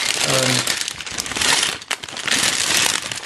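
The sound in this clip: Plastic bags of LEGO bricks crinkle and rustle almost continuously in sharp, bright bursts, with a brief voice at the start.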